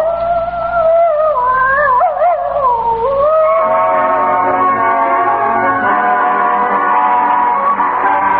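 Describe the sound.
Bugle Ann, a spotted hound, bays in one long, loud, mournful howl whose pitch wavers and bends early on, then settles into a steady, sustained tone.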